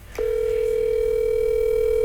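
A steady telephone tone on an outgoing call starts after a faint click and holds at one even pitch for about two seconds, alone and unbroken.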